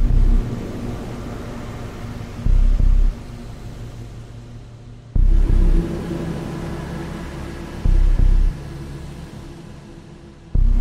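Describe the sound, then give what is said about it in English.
Soundtrack from the first trailer for the video game Among Us: a low, rumbling, hissy ambient drone, punctuated by heavy bass thumps that recur every two to three seconds. “have a little bit of a listen of the first Among Us trailer, where basically you'll get to hear the kind of the Among Us soundtrack, because there's not much else in the trailer than that.”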